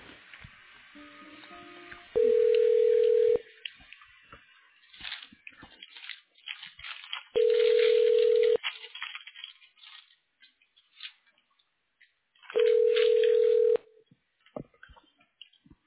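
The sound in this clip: Telephone ringback tones as a call is transferred to voicemail: three loud, steady mid-pitched tones, each about a second long and spaced roughly five seconds apart, with faint crackly line noise between them.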